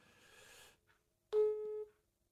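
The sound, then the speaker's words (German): A single buzzy electronic call tone sounds while a mobile phone is being dialed. It is steady and rich in overtones, and a short burst of hiss comes before it. “seid jetzt live dabei, wie ich Benjamin einfach nochmal anrufe.”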